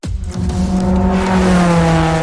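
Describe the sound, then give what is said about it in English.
Race cars speeding through a turn on the final lap, near a wall. A loud, steady engine drone with a sustained high whine fills the whole stretch after a sharp onset. “And we are coming off turn 4 with the final lap barely inches separating these vehicles from the wall.”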